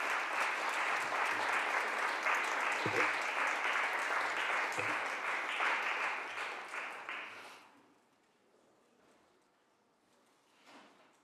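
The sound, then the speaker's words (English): Applause welcomes a former California state senator in the Senate chamber. Steady, dense clapping fills about seven seconds, then tapers off into near quiet. “Can we give her a warm welcome? Welcome back to former Senator Gloria Romero.”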